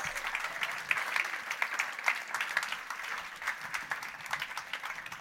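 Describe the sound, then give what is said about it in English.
A church audience applauds to welcome a married couple, with dense, steady, fairly faint clapping that runs without a break. “So could you put your hands together and welcome Mr. and Mrs. Paul and Laura Campbell.”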